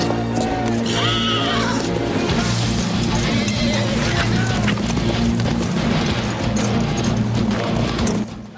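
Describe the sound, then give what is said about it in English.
Hooves clatter as a group of horsemen, some carrying banners, ride away. A horse whinnies early on, and loud, dense music plays throughout. “Taligaro glares at Cull, then mounts his horse. They stare at each other once more, then Taligaro rides away. His men, some with banners, follow him.”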